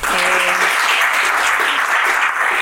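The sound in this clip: Audience applause for a medical student being introduced, a dense, steady clatter of many hands clapping throughout, with a short voice at the very start.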